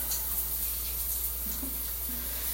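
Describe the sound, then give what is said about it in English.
Running shower water, a constant, even hiss without a break, with a steady low rumble underneath. “In the shower, and I've been in so long, like I am right now”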